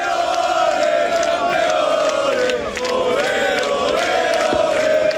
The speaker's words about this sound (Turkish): Ligde üst üste ikinci şampiyonluğu yaşayan Barcelona taraftarları sokaklara döküldü.